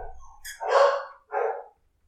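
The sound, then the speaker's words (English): Dogs at home bark twice in quick succession, each bark sharp, mid-pitched and loud, with silence after. “I was going to ask if you can hear the dogs barking in the background.”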